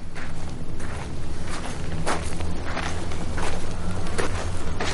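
Footsteps of a man walking along railway tracks, a steady run of many crunching footfalls over a constant low rumble.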